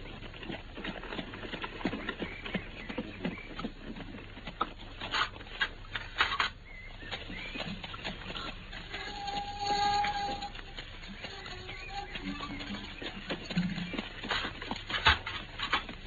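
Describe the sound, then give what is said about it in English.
Horse-drawn carriage approaching along a driveway, its hooves clip-clopping steadily over a continuous rumble of wheels and hiss, fairly faint throughout with no talk. “I can see the carriage in the driveway now.”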